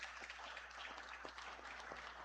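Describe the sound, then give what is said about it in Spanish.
Applause for visiting guests during a Catholic Mass: faint, continuous clapping with a steady low electrical hum running underneath. “También regalemos un aplauso a estos hermanos.”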